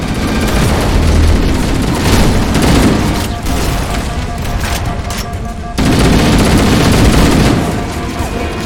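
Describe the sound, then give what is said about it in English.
Heavy gunfire, including a rifle, forms a continuous, loud barrage of overlapping booming reports. The din eases briefly midway, then surges back to full strength. “How was that for satisfying gun sounds?”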